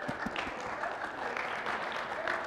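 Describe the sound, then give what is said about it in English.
A church audience claps hands in praise, a steady dense patter of applause that stays fairly even and moderately soft for the whole stretch, with no voices rising above it. “Can we give God a hand clap of praise?”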